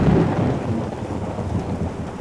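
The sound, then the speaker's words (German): Thunder rumbles through a thunderstorm over steady, heavy rain, a loud and continuous deep roar with no pauses or voices. “Sinnbild für die Gewalt der Elemente und mit Gewittern, Blitz und Donner für die Unberechenbarkeit der Natur.”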